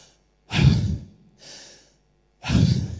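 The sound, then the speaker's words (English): A voice imitates heavy, laboured breathing: three raspy, breathy gusts, two loud and one softer between them, with short pauses and no speech. “like really laboring in his breathing, really heavy”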